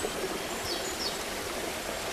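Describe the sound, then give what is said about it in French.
Water streams down a small waterfall beside a path, producing a faint, continuous, even rushing hiss with no breaks or distinct splashes. “Au bord du chemin, petite cascade.”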